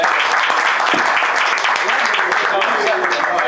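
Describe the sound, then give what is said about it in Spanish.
Audience applause for a golf prize winner at an awards presentation, steady, loud clapping that fills the whole stretch while people talk over it. “Muy bueno. Aplauso por el”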